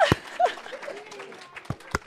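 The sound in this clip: A few scattered sharp hand claps during a lively praise moment at a church gathering, spread apart over cheerful background voices.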